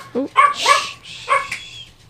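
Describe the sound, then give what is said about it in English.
Dog barking in a shop, a few sharp, high yips and barks in a quick burst with short whining tones between them. “sorry we got a dog in the shop, sorry.”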